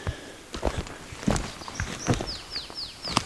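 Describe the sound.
Footsteps walk through a forest along wheel tracks left by a forwarder or harvester, giving many irregular soft crunching steps over a faint background. Several brief high bird chirps sweep downward near the end.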